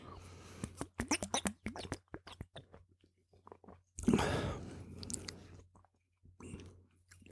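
Chewing and tasting something ginger-flavoured: many soft, irregular wet clicks and small crunches, a louder rustling burst about midway, then quieter smacking mouth sounds.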